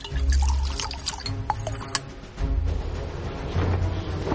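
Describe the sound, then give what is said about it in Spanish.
Liquid trickling and dripping as fluid drawn from a dragon's tail fills a dart, with a couple of sharp clicks over a low, steady hum. “Grimmel saca líquido de la cola de su dragón. Está en Isla Mema. Llena un dardo.”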